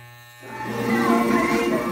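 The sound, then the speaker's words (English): Electric hair clippers buzz steadily while shaving a woman's head in a kitchen, a continuous, even drone that switches on after a brief low hum and stays constant. “The buzzing sound you hear in the background is from the clippers shaving her head.”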